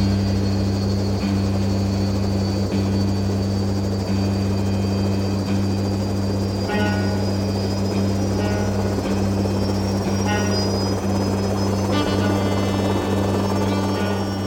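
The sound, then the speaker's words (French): Helicopter rotors roar throughout a string quartet performance staged with helicopters, a loud, steady droning wash with low sustained hums and faint recurring thumps. “j'ai fait une première chose en demandant à Stockhausen d'utiliser une musique qui existait, qui était la musique, le quatuor hélicoptère quartet.”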